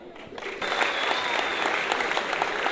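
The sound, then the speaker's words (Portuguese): Applause at a samba pagode gathering, dense steady clapping that grows louder after a brief opening, then holds evenly to the end. “uma salva de palmas”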